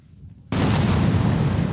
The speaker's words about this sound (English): One more hit, two more missiles, and the building is now dead. It's dead now. It's dead by means of Israeli missiles.